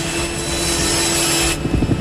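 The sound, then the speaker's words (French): A high-performance circular saw cuts through wire fencing during a helicopter prison break, giving a loud, steady grinding whine with a sustained hum. It stops abruptly after about one and a half seconds, followed by a few softer knocks. “avec une scie circulaire de haute performance, découpe le grillage.”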